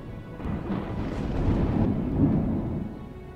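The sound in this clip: Thunder from a lightning strike rolls as a heavy, continuous low rumble, fairly steady in loudness with a slight swell late on, with a faint rain-like hiss beneath it.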